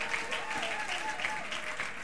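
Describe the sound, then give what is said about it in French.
A church audience applauding, soft rhythmic clapping falling into a regular beat of roughly three claps per second and staying steady and fairly faint throughout. “On acclame encore très fort le Seigneur notre Dieu.”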